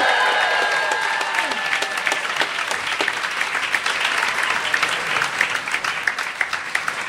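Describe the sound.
An audience applauds to welcome teams onto a stage. The clapping is sustained, loud and dense, with sharp individual claps standing out as it carries on for several seconds.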